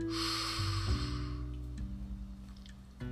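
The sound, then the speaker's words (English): A deep diaphragmatic breath: a long, airy rush of air for just over a second, followed by soft, low sustained tones. “Breathe in deep, diaphragmatic breath. and out. In.”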